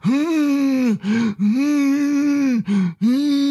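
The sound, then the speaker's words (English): A voice imitates someone humming in their sleep: three long, steady, mid-pitched hums, each broken by a sharp gasping inhale, loud and alone. “maybe you don't snore, but you hum all night. You sound like this.”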